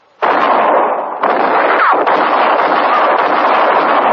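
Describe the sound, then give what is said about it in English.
A gunshot sound effect from a radio western drama: a sudden loud blast starts the sound, and dense, rough noise then stays strong to the end. “You killed me! I'm shot! It was Katie Fulton's shot that missed Mattie Silks and hit Court Thompson.”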